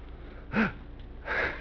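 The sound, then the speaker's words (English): Heavy breathing made of two faint, airy breaths a little under a second apart, each a soft noisy rush of air. “Constant heavy breathing.”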